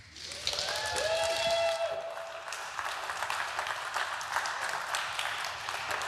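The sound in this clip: Audience applause at an EMF event welcomes a speaker to the stage: dense, sustained clapping that stays loud and even throughout.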